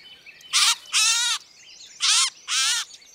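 Harsh, buzzy calls from a gray catbird held while being untangled from a net: four loud, high, rasping squawks falling in two pairs, with no talk over them.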